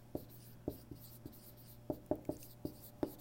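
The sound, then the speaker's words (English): Writing on a board: a series of short, soft tapping strokes in an uneven rhythm, some in quick clusters and others spaced apart, over a faint low hum. “This is a long one for me to write. Compromised, I'm just going to put that”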